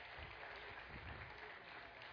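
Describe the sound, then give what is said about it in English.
Congregation applause during a church service, a faint, steady, even patter of many hands clapping continuously for about two seconds. “One more round of applause for Sabrina and Mark.”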